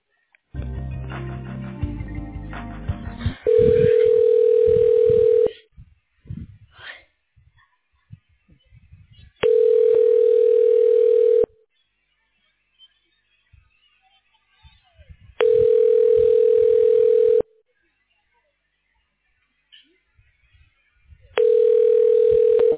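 A telephone line tone plays while a call is transferred to voicemail. A steady mid-pitched tone comes in about two-second bursts with longer silences between them, four times, after a short opening stretch of faint line noise.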